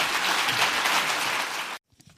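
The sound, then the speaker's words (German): Applause at a business forum in Bad Saarow for a speech by Friedrich Merz: dense, even clapping that holds steady, then cuts off abruptly near the end, leaving near silence with a few faint ticks. “Auch dafür bekommt Friedrich Merz in Bad Saarow viel Applaus.”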